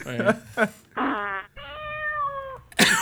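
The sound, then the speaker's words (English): A fart sound effect plays as a few buzzy, tonal blasts separated by short pauses, with one noticeably longer, steadier drawn-out note near the end. “I have a fart sound effect in here. Let me see. There you go.”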